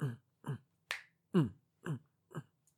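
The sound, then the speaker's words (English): Finger snapping in time with walking steps: a steady run of crisp, evenly spaced snaps about every half second, each sharp and clear against silence, with no talk. “I got to snap my fingers when I walk, too. Like every fourth step, I got to snap my fingers.”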